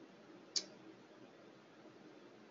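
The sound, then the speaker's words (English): A computer mouse button gives a single sharp, faint click against a quiet, steady background hiss. “Oh, gosh. I clicked the wrong button. Hang on a second.”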